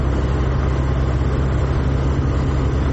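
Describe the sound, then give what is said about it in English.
Steady low engine rumble and road noise from a car driving at night in the Puglia region of Italy, constant and loud throughout with no talk. “We're in the front seat here, behind the driver. We're driving in the middle of the night in the Puglia region.”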